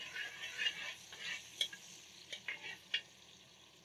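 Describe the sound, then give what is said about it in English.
Ginger fries in hot oil with a soft, quiet sizzle, broken by a few sharp crackles and pops that stand out above the low, steady hiss. “I like to start off with a bit of ginger. I still give the oil a little perfume, a little flavor.”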